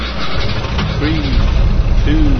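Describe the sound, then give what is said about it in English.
A race car engine starts in a racing video game, the Blackbird race car with automatic transmission. A brief quiet gives way to a loud, steady low rumble that holds throughout. “Start your engine.”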